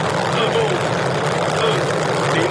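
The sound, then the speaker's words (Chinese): A Long March 2F rocket carrying the crewed Shenzhou-14 spacecraft launches from the Jiuquan Satellite Launch Center, a deep, continuous, loud roar held steady throughout, with a voice speaking over it. “6月5号10:44，搭载神舟14号载人飞船的长征二号 F114 运载火箭，在酒泉卫星发射中心点火发射。”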